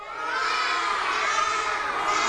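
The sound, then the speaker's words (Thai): Children in a classroom lesson imitate the cawing of crows, their voices blending into a loud, continuous shouted chorus with no pauses. “ลักษณะสำคัญของกาคืออะไรเอ่ยไหนลองทำท่าร้องด้วย”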